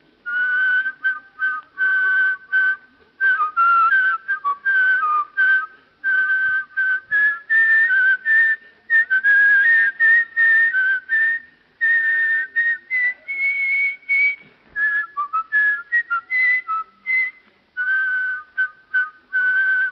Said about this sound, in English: That particular thing is a fragment of the second movement of Beethoven's Seventh Symphony. Now give us the same thing in counterpoint.